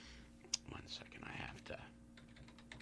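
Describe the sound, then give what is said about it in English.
Soft clicking of typing on a computer keyboard, faint and scattered, with a sharper click near the start and low murmuring underneath. “type up something so I can have it in front of me as I talk to you”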